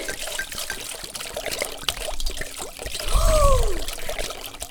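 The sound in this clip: Water trickles and pours from a broken washing machine flooding a kitchen floor, a continuous watery flow that swells louder toward the later part before easing slightly.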